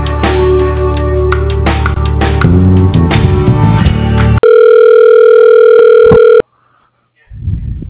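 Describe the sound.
Telephone ring tone as a call is transferred to voicemail: a steady electronic tone holds for about two seconds after several seconds of busier tonal sound, then cuts to silence before a voice begins.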